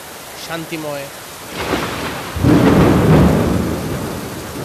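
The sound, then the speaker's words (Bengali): Rain with thunder in a calm stormy setting: a steady wash of rainfall that builds midway into a deep, rolling thunder rumble, loud and sustained through to the end. “শান্তিময় বজ্রপাত সহ একটা পরিবেশ, বৃষ্টির শব্দটা অনেকেই উপভোগ করেন,”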